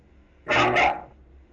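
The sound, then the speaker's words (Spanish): A small dog barking, heard as one short, loud, bright burst that fades quickly, with quiet before and after. “Creo que el perrito quiere escuchar salsa. ¿De quién es? ¿Quieren escuchar? El perrito, ¿de quién es el perrito?”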